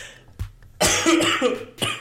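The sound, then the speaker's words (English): Coughing fit after saliva went down the wrong way: a brief cough, then a loud, harsh cluster of coughs, and one more sharp cough at the end, with no talking. “I just breathed in and it went down the wrong... My saliva just went down the wrong hole.”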